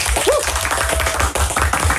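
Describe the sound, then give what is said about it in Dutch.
Audience applause on a Dutch music show, a steady spread of clapping with a brief voice near the start and low rhythmic thumps underneath. “Nederland. Applaus.”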